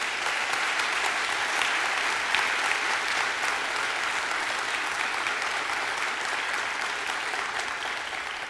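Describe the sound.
Congregation applause at a church service: sustained, even clapping from a large group holds a steady level for several seconds and tapers slightly at the end, with no voices on top.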